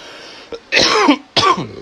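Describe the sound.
Harsh coughing after inhaling a cannabis dab, with a small catch of the throat followed by two loud, raspy coughing bursts separated by a brief pause.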